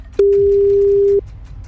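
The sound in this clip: A telephone ringing on the line while the caller waits for an answer: one long, steady, single-pitched electronic tone starts abruptly, holds for about a second and cuts off cleanly, over a faint background.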